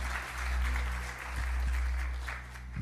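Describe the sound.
Applause from a church audience welcoming a speaker, a steady wash of clapping that holds at an even level for about three seconds.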